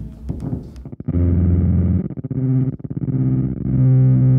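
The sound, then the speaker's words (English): A guitar runs through an overdrive pedal stacked into a clean amp channel with a built-in noise gate. A few picked notes lead into thick, sustained distorted chords that cut off sharply between phrases, then ring on loud. “So I'm sending the overdrive through the clean, so it's stacking both together, and then I can adjust it as well.”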